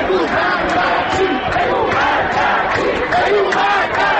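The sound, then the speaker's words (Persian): Protest crowd chanting slogans in unison on Enghelab Street, a loud, dense roar of many voices that continues without a break, with repeated rhythmic swells in the chant. “شعار دوم از انتهای خیابان انقلاب که میرسد خیلی آرام و نامفهوم است، اما موجش جمعیت را میگیرد و ناگهان صدا بالاتر و بالاتر میرود.”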